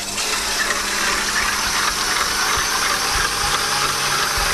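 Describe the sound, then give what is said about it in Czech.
Cream is whipped with a spoonful of sugar, making a steady, loud whirring drone with faint rattling clatter underneath. The sound is continuous throughout, and no voices are heard. “teď si vyšláme šlahačku a k ní máme přidat lžíci cukru”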